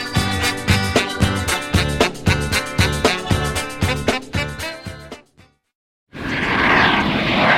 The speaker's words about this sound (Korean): 손님 여러분, 저희는 잠시 후 영등포 호놀룰루 국제공항에 착륙합니다.